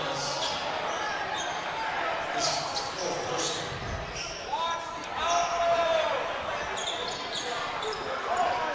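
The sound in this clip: A basketball is dribbled up the floor during a Tecumseh game, its repeated hollow bounces thumping steadily under a commentator's voice.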